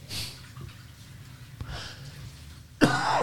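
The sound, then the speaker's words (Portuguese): A person coughing hoarsely, a few rough bursts spread apart, the last one loudest and harshest, with faint background noise between them. “Perdão. Uma tosse terrível.”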